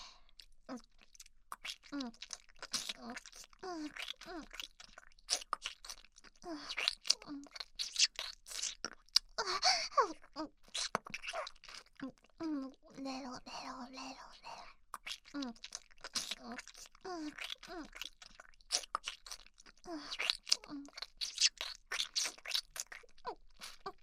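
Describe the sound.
Wet kissing sounds: many quiet smacks and lip noises repeating in an uneven, steady stream.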